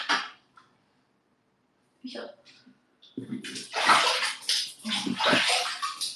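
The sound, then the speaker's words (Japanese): A shower runs in a bathroom, a broad, rushing spray of water that starts about halfway through and keeps going. Someone talks over the water, and there is a short quieter stretch with faint voice sounds before the spray begins. “シャワーの音とかするかも、普通に。シャワーの音するよ。”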